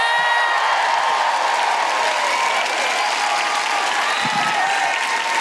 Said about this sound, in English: Please welcome to the stage with incredible woohooing and a certain amount of trepidation, Alison Spittle!